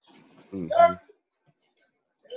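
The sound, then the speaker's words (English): A dog gives a single short, harsh bark, followed by near silence and a faint sound at the very end. “in the background barking? What is that doing?”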